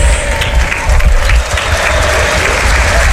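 A stadium crowd applauds in tribute to a late former federation president, a loud, sustained roar of clapping that dips briefly midway, then holds steady to the end.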